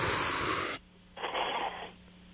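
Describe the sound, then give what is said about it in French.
A person takes a deep breath in during a breathing exercise. A loud, airy, wheezy hiss is followed by a short pause and then a softer, briefer breath sound. “Juste trois fois, on inspire puis on expire. OK? Suis-moi. On va commencer par inspirer.”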